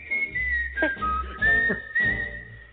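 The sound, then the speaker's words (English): A person whistles a short melodic tune alone, clear and fairly loud, moving through several sustained phrases with shifting pitch. “Whistling.”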